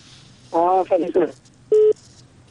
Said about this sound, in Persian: تماس از اینا قطع شد، کدام مشکل تکنیکی بود؟